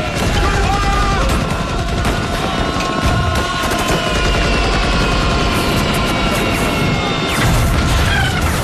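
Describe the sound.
Loud, continuous battle din of machine gun fire with crashes and booms, dense and unbroken throughout, with shouting voices mixed into the chaos of the fighting.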